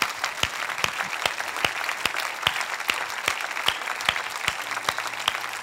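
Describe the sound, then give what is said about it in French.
Congregation applauding Jesus, many sharp claps falling together in a steady, regular beat, fairly faint and kept up throughout. “Sur quoi levons-nous et acclamons le Seigneur. Lève-toi, lève-toi, acclame Jésus, le Dieu de la grâce.”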